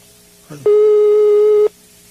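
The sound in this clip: A telephone busy tone sounds after a dropped call: one steady, loud electronic tone that holds for about a second after a brief onset, then stops, with nothing else around it.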